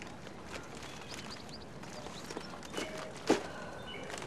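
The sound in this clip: Faint tapping steps of someone walking on crutches, then shopping bags set down on a doorstep: quiet, uneven taps leading to a slightly louder soft thud near the end.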